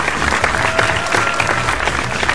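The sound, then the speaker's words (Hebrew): Loud, dense applause from an audience at a game show held in a summer camp pavilion in the Berkshires, a steady clatter of many hands continuing throughout without a break. “מחיאות כפיים אנשים.”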